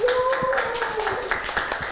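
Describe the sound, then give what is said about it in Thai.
Hands clapping in applause during a children's class, a quick run of sharp, dense claps heard together with a voice. “ปรบมือให้น้องเกดด้วยค่ะ”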